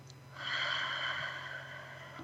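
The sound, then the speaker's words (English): A deep breath taken during a guided relaxation exercise, drawn in through the nose and let out through the mouth: a single long, soft, airy rush of breath over a low steady hum, with no talking. “Start taking a nice deep breath in through your nose, out through your mouth,”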